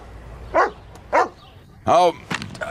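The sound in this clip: A dog barks three times in loud, separate bursts spaced across a couple of seconds, followed by a few fainter clicks and knocks.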